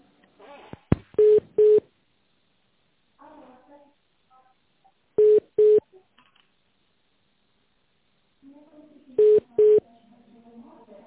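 Telephone transfer tones sound as three pairs of short, steady mid-pitched beeps, evenly spaced about four seconds apart, with faint murmurs and clicks in the gaps between them.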